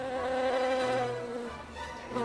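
Bees buzzing around the mango tree where they build their nest: a steady, continuous droning hum with a rich harmonic tone that holds throughout without pause.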